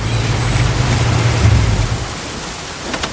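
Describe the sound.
A pickup truck arriving home in the rain at night, a low steady engine rumble under loud, dense rainfall, the rumble stopping after about two seconds while the rain keeps hissing.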